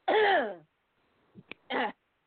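A person choking and clearing their throat: a long, harsh voiced rasp, a quiet stretch broken by a small sharp click, then a second, shorter rasp.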